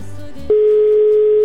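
A telephone call goes unanswered: a short jumble of lower tones gives way to a loud, steady, unbroken line tone that holds to the end.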